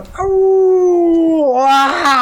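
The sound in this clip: A long, loud howl holds a steady mid pitch for over a second, dips briefly, then rises into a rougher, strained break before cutting off.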